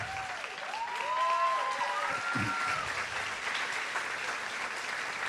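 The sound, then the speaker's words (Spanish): Church audience applauding to welcome a pastor and his wife at a Spanish-language service, a steady, dense clapping that holds for the whole clip with faint voices mixed in. “Y quiero que recibamos con un fuerte aplauso al pastor David Escarpeta.”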